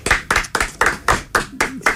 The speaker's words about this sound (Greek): Εγώ χειροκροτάω εδώ